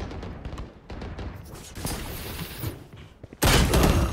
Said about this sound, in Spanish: Joder, me comió la flashbang.